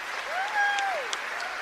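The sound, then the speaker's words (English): Audience applause for a cellist at a live music performance: a soft, steady wash of clapping with one voice giving a rising then falling whoop over it. “Round of applause for Amelia.”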